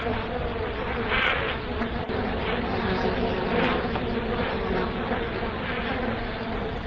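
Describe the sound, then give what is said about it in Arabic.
Swarm of mosquitoes buzzing in a dimly lit prison cell, with a pond said to lie behind the cells; a dense, continuous high drone holds steady and fairly loud throughout, with no talking. “الله، ايه ده؟ كل ده ناموس؟ دي جيوش. الظاهر ان في بركة ورا الزلازين.”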